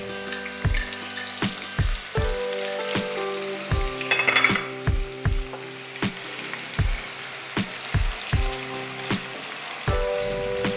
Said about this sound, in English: Yeah, so the oil seems to be hot. So for first, what we will do is we'll put the onions.